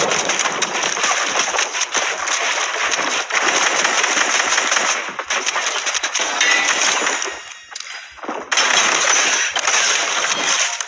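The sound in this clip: Automatic gunfire in a shooter video game: rapid, near-continuous bursts of loud shots, broken by a brief lull near the end before the firing resumes.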